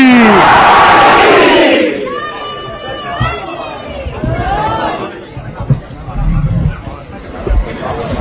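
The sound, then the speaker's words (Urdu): A crowd at a devotional gathering shouts the Nara-e-Haidari chant in unison, a loud burst lasting about two seconds, then dropping away into scattered shouts and murmuring voices. “یہاں سے وہاں تک اس محفل شاہ خراسان کو غدیر سمجھ کر تاریخی نعرہ، نعرہ حیدری”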